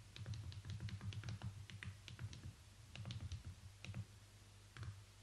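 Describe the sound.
Rapid key presses on a mobile phone keypad while writing in a text editor: many quick, irregular clicks in short bursts over a steady low hum, with no talking.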